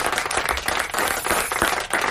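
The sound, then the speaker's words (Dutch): Applause from a Dutch-speaking audience, with irregular, overlapping claps forming a busy, fluctuating patter at a moderate level. “Ja, ik begrijp dat applaus. Begrijp het.”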